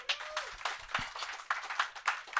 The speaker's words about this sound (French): On l'applaudit, s'il vous plaît.